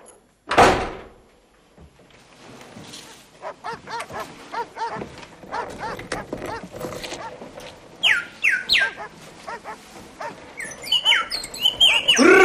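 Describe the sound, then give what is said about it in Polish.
A European robin calls loudly in bright, high chirping bursts toward the end, after a sharp loud thump at the start and a stretch of busy clatter. “Rudzik! Delikatny i potulny. Nóżki ma takie cienkie niczym zapałki. Ależ głośno krzyczy. Ostrzega inne samce.”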